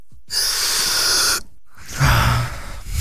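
A can holding 5 litres of canned oxygen releases gas in one sustained, bright hiss lasting about a second. After a short silence comes a softer, rough, breathy rush of air.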